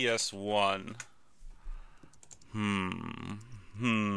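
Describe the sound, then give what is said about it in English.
Typing on a computer keyboard gives a quick run of faint, sharp key clicks in a pause between stretches of people talking. “Okay, yeah, you type that into the old computer.”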